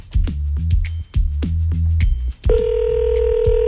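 A telephone tone sounds on a prank call placed during a late-night radio show. It holds as one steady tone after a few low, falling tones.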